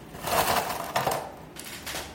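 Ice cubes clinking and rattling into a glass set up for a Negroni cocktail: a few bright, crunchy bursts of clatter with short quiet gaps between them, moderately loud and with no talking over them.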